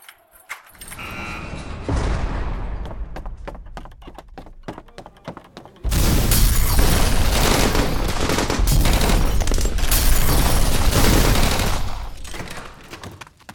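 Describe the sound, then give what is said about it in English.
Rapid bursts of gunfire crack out as bullets are shot, many sharp shots in quick succession over several seconds, then give way to a loud, steady roaring noise that holds before fading. “Oh, bullets! My only weakness!”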